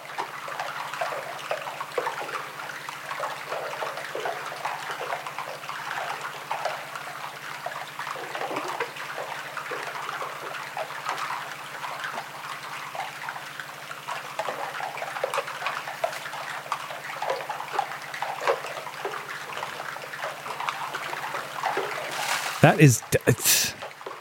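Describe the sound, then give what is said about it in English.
Water dripping from a glacier, recorded in front of it: a continuous trickle with countless small drips and splashes, steady in level throughout, with a few louder knocks near the end. “I remember in front of a glacier, let me play that sound just here, what the glacier sounds like.”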